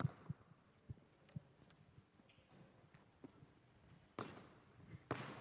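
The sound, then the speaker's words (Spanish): A few faint basketball bounces on a court before a three-point shot, heard as irregular dull thuds with a couple of slightly louder knocks toward the end. “Yo dejo el sonido. Seguro que Marco bota un poquito la pelota antes de enchufar.”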